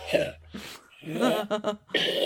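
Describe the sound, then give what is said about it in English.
A person vocally imitating a cat coughing up a hairball: a few harsh, throaty hacking and gagging bursts separated by short pauses. “and just slightly backing up, like arse in the air, front paws forward. So you're coughing up a hairball, correct? I'm attempting to gross out the house, yes.”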